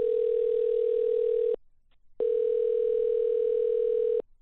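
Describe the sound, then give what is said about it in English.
A steady telephone dial tone, a loud, even, continuous hum that cuts out for about half a second and then resumes unchanged. “I had nothing to lose, though. I dialed the number.”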